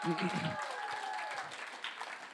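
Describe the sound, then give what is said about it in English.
Audience applause as a panel of speakers is invited up, a dense, steady wash of many hands clapping throughout, with a voice briefly audible beneath it at the start. “So give them a round of applause as they come up.”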